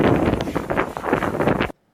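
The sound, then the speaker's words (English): Wind buffeting a microphone in a played video recording, a loud rushing roar with gusty swells that cuts off abruptly near the end. “I'm really glad they recorded the wind. Well, you got to get the wind in there.”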